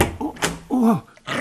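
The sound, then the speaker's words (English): A dog gives a single short, low growl with a rumbling, slightly wavering tone, lasting under half a second, with brief other sounds just before and after it. “The dog.”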